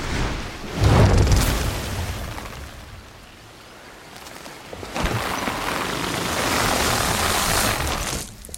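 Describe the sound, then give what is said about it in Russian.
Heavy rain pours on an overcast day in a bamboo forest, a broad, continuous hiss that swells loud early, eases in the middle, then returns strong and steady to the end. “Пасмурный день. Льет дождь.”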